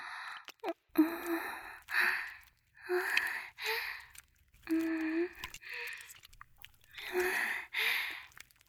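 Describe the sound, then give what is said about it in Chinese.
Heavy breathing: many breathy gasps and sighs, some with a voiced edge, in a steady rhythm separated by short pauses. No words are spoken. “你的呼吸好重啊。”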